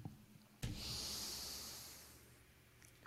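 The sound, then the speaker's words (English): A single long breath into a microphone: a soft, airy hiss that starts abruptly, then fades slowly over about two seconds. It is quiet and has no speech. “There's my breath. There's my breath.”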